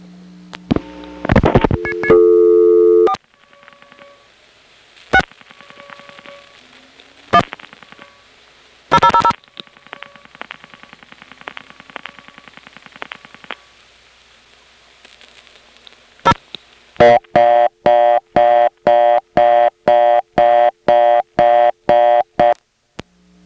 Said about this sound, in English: Here's an example of a touchtone converter failing to drop out after dial pulsing. I tried dialing another digit just in case it hadn't heard one of my previous ones, but that didn't help.